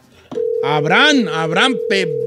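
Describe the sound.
A steady telephone tone on an outgoing call, waiting for someone to answer, holds one unbroken pitch from early on to the end while a voice sounds over it.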